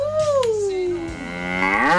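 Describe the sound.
A cow moos in one long, loud, drawn-out call. Its voiced tone sags lower through the middle and then climbs again near the end, with no other sounds.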